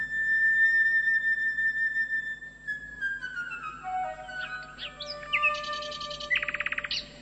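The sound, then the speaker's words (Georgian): A nightingale sings long, pure, sustained whistled notes that step down in pitch, then breaks into quick chirps and a rapid trill near the end, with no voices. “ბულბულმა ისეთი ნაზი გალობა დაიწყო”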